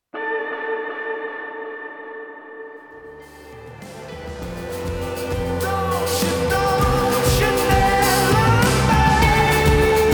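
A sung vocal on the last word of a chorus, a low line doubled an octave up, is drenched in heavy delay and reverb. Sustained tones swell into a dense, rising wash of echoing repeats that grows louder toward the end.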